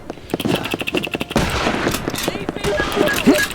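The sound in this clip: Video game gunfire crackles in rapid bursts, many sharp shots fired in quick succession, loud and dense from start to finish.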